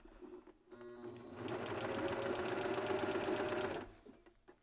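A coverstitch machine sews kids' leggings with purple thread in the cover looper: quiet mechanical shuffling, then a loud, even whirring run of about two and a half seconds that stops abruptly, followed by faint handling noises.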